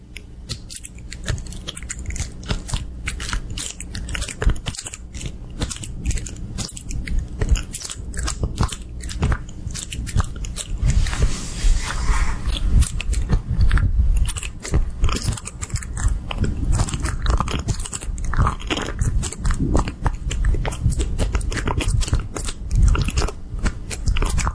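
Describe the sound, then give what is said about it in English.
An ASMR recording of objects rubbed against a microphone produces dense crackling, crunching and scratching noise. It stays loud and steady throughout, with irregular sharp clicks. “People with too much money and too much free time rub random objects against a microphone. No, that's actually what ASMR is. Here's an example.”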